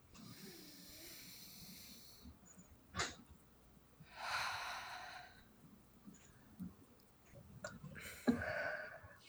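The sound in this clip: Deep breaths drawn during a guided self-calming tapping exercise: a few soft, airy breath sounds, each swelling and fading, faint and alone with no talk.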